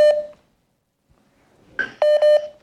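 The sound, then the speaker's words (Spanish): Call-waiting beeps from an incoming phone call: one short electronic beep, a silent pause, then a higher beep followed by two lower beeps close together. “me estaba entrando una llamada”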